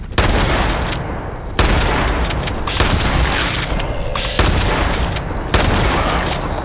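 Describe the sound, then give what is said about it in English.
Rapid video game gunfire aimed at a mangy rat creature: a dense roar of shots with a few heavier bursts punching through, loud and continuous throughout with no talking. “Got him. Shot him dead.”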